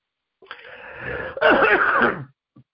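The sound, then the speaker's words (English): A person clears phlegm from the throat in two drawn-out rasping pushes, the second louder and rougher, then a faint short sound after a brief pause. “Excuse me. A little phlegm.”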